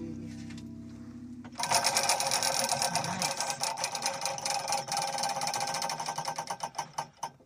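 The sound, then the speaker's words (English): A prize wheel spinning during a game, giving off a rapid, steady stream of loud ratcheting clicks that gradually space out and slow near the end. “on your behalf, I'm going to spin the Wheel of Eight”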